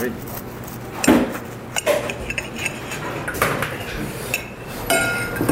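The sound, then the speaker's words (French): A knife cuts through a hot sandwich on a board or plate, giving a few sharp knocks and clinks spread across the moment while people talk quietly. “Le sandwich, je vais le couper.”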